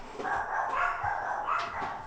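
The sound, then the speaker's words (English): Dogs bark behind a muffled, faint background, a few dull barks blending into the steady low noise. “Sorry about that, my dogs.”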